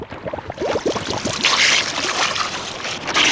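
Rowboat on water, with a quick run of splashes and sloshing strokes early on, then a softer, hissing wash of moving water.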